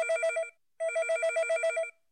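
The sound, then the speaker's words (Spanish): A telephone rings in two trilling bursts separated by a short pause. The bell tone is bright and evenly pulsed, with nothing else heard. “un día lo llamaron por teléfono.”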